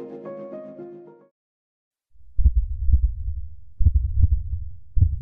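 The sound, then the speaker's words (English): A man's heart beats as he leans over an edge. After a few brief musical tones and a short silence, deep, loud thumps arrive in doubled pulses, several in a row. “You know what that is? It's the sound of a heart beating faster and faster.”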